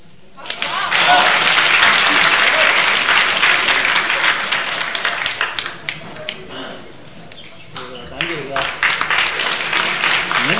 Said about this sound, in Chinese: 您快别鼓掌了